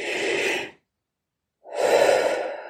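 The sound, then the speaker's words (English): A deep in-breath taken as a calming exercise: a long, breathy inhale, almost a second of silence, then another long, airy breath. “all you need to do is to take a deep in-breath,”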